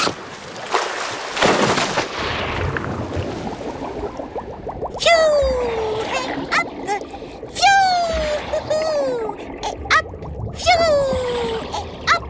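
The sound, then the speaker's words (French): A sharp, loud splash of someone diving into water opens, its broad rushing noise fading over about two seconds, followed by a series of repeated high whistling chirps that sweep downward in pitch. “Allez hop, je plonge pour la retrouver.”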